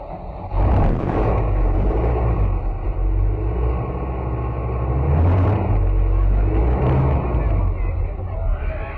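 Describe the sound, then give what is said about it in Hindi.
A car engine starts and drives off along a street, a loud, steady low rumble with a few surges, with voices murmuring in the background. “आइए जल्दी motor में बैठ जाइए, हम उस अगले मोड़ पर मोटर रोककर उन सबका इंटरव्यू लेंगे।”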